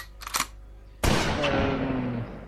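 A sergeant fires one gunshot, hitting someone in the head. The loud, sharp crack rings out into a long fading tail, with a brief click just before it.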